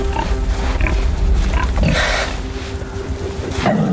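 Wild boars fighting over mating rights within a herd in a forest, giving rough grunts and harsh squealing snorts in several bursts over a continuous low rumble.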